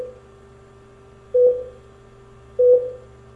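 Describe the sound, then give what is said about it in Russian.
Telephone line tones during a call to the police: a steady low tone with two louder, longer beeps about a second apart, and no voices. “Вы извините, но я вынужден вызвать полицию.”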